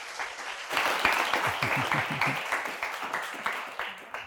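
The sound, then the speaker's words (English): An audience applauds to welcome a speaker to the podium at Rosedale, a dense, steady patter of many hands clapping that holds throughout and eases slightly toward the end. “So would you please give Kevin a warm welcome to the podium today.”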